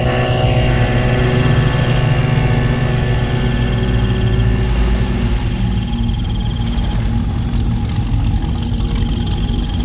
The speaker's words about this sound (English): What's that sound? It's a boat. It's coming toward us.